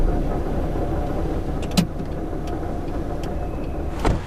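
A car driving on a road near the border, with a steady rumble of engine and tyre noise and a couple of brief clicks or knocks.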